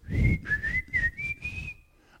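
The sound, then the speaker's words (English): A person whistles a short, improvised little tune, a clear wavering melody of several connected notes that dips and rises in pitch, then falls quiet near the end. “Don't ask me what tune that was. I don't know. Maybe I'll leave the whistling to somebody else.”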